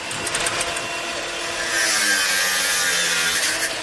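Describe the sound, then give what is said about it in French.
An angle grinder saws through a metal key box fixed to a stair railing in a street in Marseille. The cutting is a loud, continuous, harsh metallic whine that grows louder partway through and stays steady to the end, with no voices. “Dans le quartier du Panier à Marseille, trois hommes de la régie municipale sont en train de scier une boîte à clés à l'aide d'une disqueuse”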